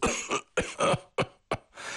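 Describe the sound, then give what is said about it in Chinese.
Coughing from a person tormented by a persistent cough: a series of short, harsh, breathy coughs in quick bursts with brief pauses between them, fairly quiet and with no talk. “咳嗽可把我给折磨死了”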